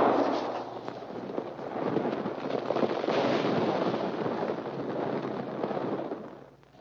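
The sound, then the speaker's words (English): Rocks loosened by a gunshot tumble and crackle inside a cave, making a continuous rough rumbling clatter that holds steady for several seconds, then fades away at the end. “Your shot loosened some rocks.”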